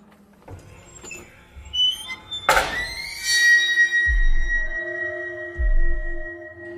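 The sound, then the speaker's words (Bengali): A key turns in a padlock on a door: a few small clicks, then a sharp metallic clunk followed by a long, drawn-out tonal creak as the lock opens, with low thumps underneath. “দরজায় লাগানো তালাতে চাবি লাগিয়ে ঘোরাতেই ক্যাঁচ করে শব্দে তালাটা খুলে যায়।”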